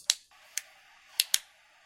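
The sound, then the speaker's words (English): Sharp snips of a cigar cutter cutting through dark cigars, four crisp clicks with a pair close together near the end, each standing alone over a low steady hum. “Okay, let's cut them up. Cut here. And light them.”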